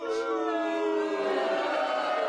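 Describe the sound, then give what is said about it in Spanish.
Crowd booing sound effect: a sustained, droning chorus of voices holding a steady, even loudness for about two seconds. “Ponme un abucheo, Toño. A ver, ahí voy, abucheo, espérame.”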